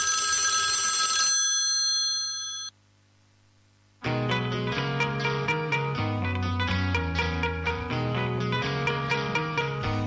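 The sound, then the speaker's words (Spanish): An electronic telephone ring opens with bright, buzzy, high tones for about a second and a half. The ring then trails off into a brief silence before music starts. “Que sonó el teléfono y yo pensé que alguien estaba llamando”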